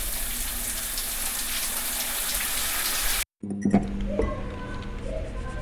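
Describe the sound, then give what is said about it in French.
Salty shower spray running as a dense, loud, steady hiss for about three seconds. It cuts off abruptly, followed by quieter clatter and faint low tones. “La douche salée s'enclenche toute seule sur mon pauvre corps meurtri.”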